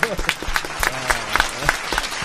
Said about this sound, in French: Alors je voudrais qu'on applaudisse pour la deuxième fois de l'émission.